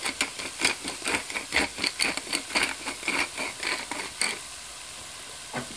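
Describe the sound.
Carrots, onions and celery sizzling in a pan over medium heat as they soften. A steady frying hiss runs under a rhythmic string of many stirring scrapes, which stop shortly before the end.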